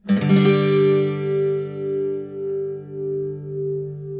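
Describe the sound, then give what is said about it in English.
A G chord with a four-note shape is strummed once on guitar, with the third finger on the third fret of the second string and the little finger on the third fret of the third string. It rings out alone, swelling gently as it slowly fades. “You can play G another way, by adding another note.”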